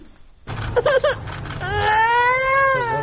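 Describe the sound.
Children cry, starting with short whimpering sobs that build into a sustained, high-pitched wail lasting over a second.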